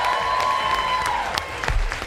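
The studio audience of a Spanish-language quiz show applauds, a continuous wash of clapping with a few sharper claps standing out toward the end.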